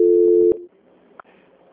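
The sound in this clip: Telephone line tone during a call transfer: a steady mid-pitched tone holds for about half a second, then cuts off with a click, leaving faint line noise interrupted by one more short click.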